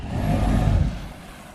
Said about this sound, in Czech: Oba čluny záchranné služby teď připlouvají k molu, abychom si je mohli také prohlédnout.